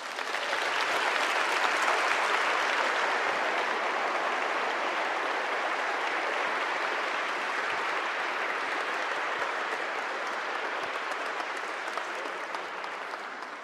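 Applause for newly baptized children at a church service, a sustained, even burst of clapping from a crowd that holds steady for over ten seconds before easing slightly.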